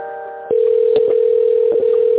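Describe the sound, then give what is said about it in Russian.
Telephone line tone during a call transfer: a brief buzzy multi-tone note, then a steady single-pitched tone held for about two seconds that cuts off abruptly. “На Максима Николаевича сейчас вас переведу.”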